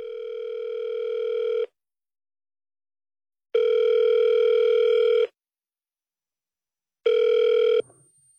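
Ringback tone of an outgoing phone call being placed: three long, steady electronic tones separated by silent gaps, the last one cut short by a click.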